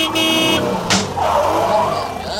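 A car swerves around a bend, its engine roaring loud and continuous, with a brief swishing burst near the middle as it takes the curve.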